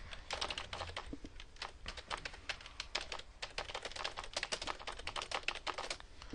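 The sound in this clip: Someone types on a computer keyboard to fill in a form, with many quick, faint keystrokes in uneven bursts and brief pauses between runs.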